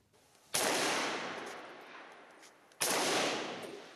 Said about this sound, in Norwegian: Skyting med håndvåpen i storbyen Aleppo i Syria.